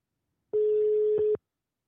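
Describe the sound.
A telephone ringback tone on a live call sounds once: a single steady, mid-pitched buzzing tone lasting under a second, alone without talk.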